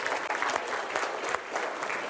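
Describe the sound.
An audience applauds with steady, dense clapping that holds at an even level throughout and stays fairly soft.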